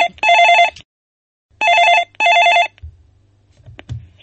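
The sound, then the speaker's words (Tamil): A telephone rings with an incoming call: one loud, bright ring burst, a pause, then two quick bursts in a row. Low, faint handling noise follows after the ringing stops. “அதுக்குள்ள இங்க ஒரு அழைப்பு வந்துருச்சு, பாத்துட்டு மறுபடியும் இதை பேசுவோங்க.”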